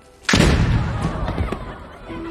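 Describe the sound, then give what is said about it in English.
A small stage cannon fires once during a ballet battle scene, giving a sudden heavy boom followed by a rumbling decay that fades over about two seconds. “The cannon fires.”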